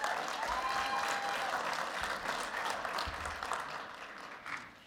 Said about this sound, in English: So, would you just put your hands together and welcome Susan to the platform?